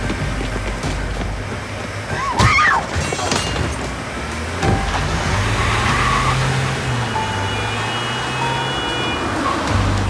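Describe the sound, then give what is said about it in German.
A car drives fast, making a loud, steady roar of engine and road noise that fills the full ten seconds. “Da sind sie! Da fahren sie schnell!”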